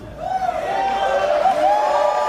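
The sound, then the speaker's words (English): Yelling and cheering from a debate audience at a political debate event: a loud, sustained shout with a wavering pitch carries through the whole clip over a steady crowd roar. “it's just full of a bunch of people yelling in the audience, as we'll hear. Some of the people in the audience here in this one are just insufferable.”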